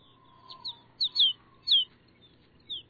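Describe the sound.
Snow bunting calls sound as six short, high chirps, spaced irregularly over quiet, with a faint, thin, lower tone near the beginning.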